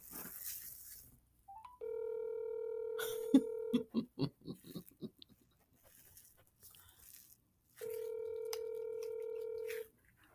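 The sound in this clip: An outgoing phone call rings while waiting for pickup: two long, steady buzzing ring tones of about two seconds each, separated by a gap filled with a burst of clicks and short tapping noises.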